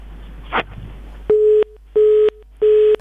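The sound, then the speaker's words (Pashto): A telephone busy tone sounds after the line disconnects: three evenly spaced, steady mid-pitched beeps, with a brief click just before them. “تلیفون رابطه مو بیرته قطع شوله.”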